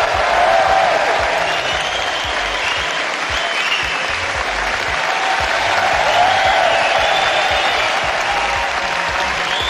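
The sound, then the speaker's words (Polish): A snooker crowd at Alexandra Palace, London, gives sustained applause: a loud, dense roar of clapping from a large audience that stays even and unbroken for the whole stretch. “Nic więc dziwnego, że doping londyńskiej publiczności nie może równać się z niczym innym.”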